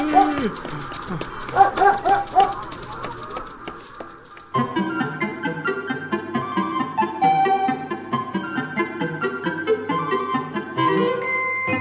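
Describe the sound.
A loyal dog barks and yips while chasing a bicycle thief. The barks are short and repeated, and they come amid busy speech and other sounds throughout.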